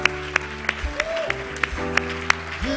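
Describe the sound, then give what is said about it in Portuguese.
A church audience claps in a steady rhythm, with sharp, evenly spaced claps about three per second over sustained musical tones that shift pitch now and then. “Est-ce qu'on peut applaudir notre Dieu? Podemos aplaudir o nosso Deus?”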